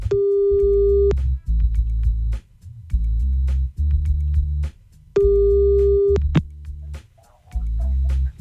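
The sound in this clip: Telephone tones sound while a call is redialed: two steady, mid-pitched tones of about a second each, separated by stretches of lower, murkier sound.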